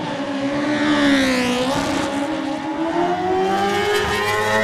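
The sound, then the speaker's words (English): A BMW superbike racing motorcycle pulls away from the start line at a road race, its engine a loud, continuous, high-pitched roar whose pitch dips and then climbs again as it revs through the gears. “It's the Bathams BMW of Connor Cummins on 11, and Connor gets away.”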